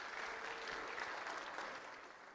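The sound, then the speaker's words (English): A round of applause from an audience: steady, faint clapping that carries on evenly and eases off slightly at the end. “Give yourself a round of the applause.”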